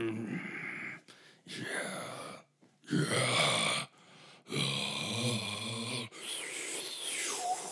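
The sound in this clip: A man's voice imitates grunting and groaning in several drawn-out, throaty bursts separated by short pauses. The sounds are rough and low, rising and falling in a guttural, moaning way.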